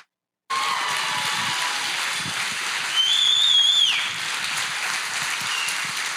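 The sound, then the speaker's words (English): Applause from a men's conference church audience welcoming a pastor to the podium: dense, steady clapping starts abruptly and holds throughout, with one shrill, sustained whistle cutting through near the middle. “Could we just give the loudest, heartfelt ovation as we welcome Pastor David Pleasant?”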